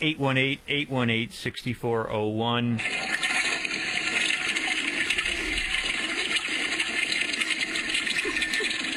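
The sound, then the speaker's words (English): A toilet flushes with a loud, sustained rushing roar of water lasting several seconds, preceded by a brief stretch of voice. “She just flushed a tick.”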